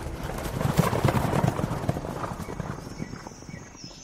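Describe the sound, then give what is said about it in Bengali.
Horse hooves clip-clop as a rider departs in a radio drama effect, a brisk, irregular run of hoof beats that gradually grows fainter toward the end. “Osman আর একটা কথাও বললেন না, ঘোড়ায় চড়ে দুর্গের দিকে যাত্রা করলেন।”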